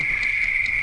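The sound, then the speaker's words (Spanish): Crickets chirping in a steady, high-pitched continuous trill that holds at an even level for under a second, with nothing else prominent. “Y ahora vamos a esperar que terminen los grillos también.”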